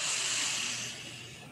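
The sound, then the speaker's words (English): A deep inhale during a guided grounding exercise: a soft, airy hiss that holds steady, then gradually thins and fades over under two seconds, quiet and with no talking. “Another deep breath in.”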